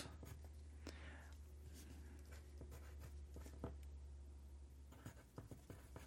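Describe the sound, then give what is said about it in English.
Faint scratching of a pen on paper as a time is noted down by hand, short strokes and small taps coming in uneven bursts at low volume. “I need to write down the time here. I'm going to put Alex.”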